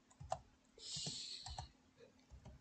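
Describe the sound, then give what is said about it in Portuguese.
Typing on a computer keyboard with one hand: scattered, irregular clicks of keys at a quiet level, with a brief soft rustling hiss partway through. “Atenção, certo estou a escrever só com uma mão, porque o microfone está está tipo à minha frente.”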